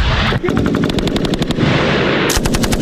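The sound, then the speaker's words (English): Machine-gun fire from archival film footage: loud rapid bursts of evenly spaced shots over a dense roar of gunfire, with another burst striking up near the end. “You guys saw some machine guns now, okay? Yeah. Ready for some machine guns?”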